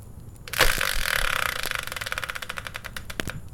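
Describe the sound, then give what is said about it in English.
A prize-wheel spinner whirs into motion with a sharp burst, then a long run of rapid, clattering ticks as the pointer clicks past the pegs, fairly loud and heard alone. “let's begin by bringing in the Wheel of Fortune style spinner and find out what today's subject will be.”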